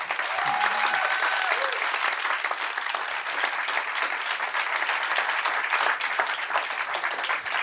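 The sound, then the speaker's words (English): An audience applauds to welcome Yuval Noah Harari, with dense, steady clapping that stays loud throughout. “So a warm welcome, please, to Yuval Noah Harari.”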